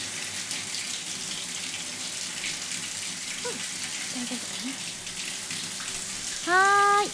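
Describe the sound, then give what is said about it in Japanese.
Shower water runs steadily to wet someone's hair, a constant even hiss throughout, with a short vocal sound rising over it near the end. “最初に軽くシャワーで髪を濡らすね。”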